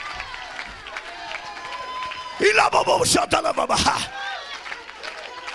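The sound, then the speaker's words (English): An audience at a worship service claps in a short, loud burst of rhythmic claps and crowd noise that rises over a man's speaking voice, then drops back to talk. “Some of you haven't clapped all night. Let's clap.”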